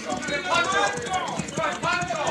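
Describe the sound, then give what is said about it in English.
Horses' hooves clip-clop as riders bring refugees to a mission, a loose run of hoof beats heard under voices throughout. “Oh, those horses. See? They must bring other refugees from the Lancers of the Devil.”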